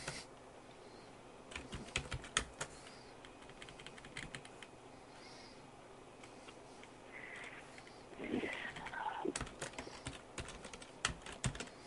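Typing on a computer keyboard: many soft key clicks in irregular bursts, fairly quiet, with a denser, louder cluster of keystrokes toward the end.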